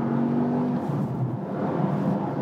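Steady, low engine drone heard while an expensive car drives through dense traffic; a continuous even hum with no talk.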